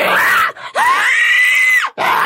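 An inhaled vocal scream, harsh and strained, comes in three bursts: a short cry, then a long, high, sustained one of about a second, then another cut off at the end.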